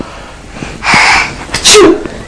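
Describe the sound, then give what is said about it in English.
A sneeze brought on by feathers: a breathy intake followed by a sharp, loud burst, heard alone without talk. “Feathers make you sneeze.”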